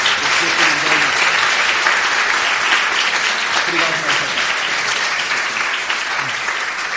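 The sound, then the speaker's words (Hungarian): An audience applauds the interpreting after a lecture. Dense, loud clapping holds steady for the full seven seconds, with no pauses. “szeretnénk megkérni titeket, hogy tapsoljuk meg a tolmácsolást is Vernőnek.”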